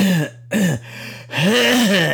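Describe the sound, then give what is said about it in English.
Rough throat clearing and hacking cough: a few harsh, voiced bursts with brief pauses between them, loud and close, with no speech over them. “do you need to go cough up something?”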